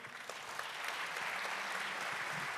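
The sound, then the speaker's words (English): Audience applause welcoming a speaker to a conference talk on an open-source satellite, a dense, even wash of clapping that holds steady for the whole stretch. “Give me a warm welcome for him, please.”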